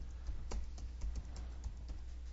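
Faint keystrokes on a computer keyboard, several soft clicks tapped in an uneven rhythm over a couple of seconds.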